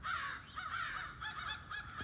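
Crows, a large flock of about fifty, caw from a big tulip poplar in a residential neighbourhood. Their harsh calls overlap in loud, dense bursts that barely pause.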